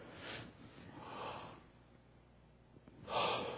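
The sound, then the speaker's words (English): A group of people takes a deep breath in and lets it out together, soft breathy rushes of air swelling and fading a few times, faint and without talk. “Take a deep breath in. Are you ready? And then we'll let it out.”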